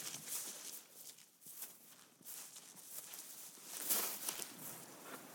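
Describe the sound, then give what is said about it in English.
Footsteps walk down a grassy bank toward a pasture fence, a soft, uneven run of many muffled steps and rustles that is faint and carries no voices. “We'll walk a little bit further to get a bit more of a story.”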